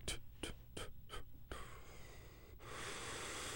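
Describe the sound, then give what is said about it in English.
Deep breaths taken to focus: a quick series of about five sharp, breathy gasps, followed by a longer, steady rush of airy breath noise that grows louder toward the end. “Helen Palmer told me I didn't have to do that breath stuff when I'm doing this, but it helps me do it. It's just a focus point.”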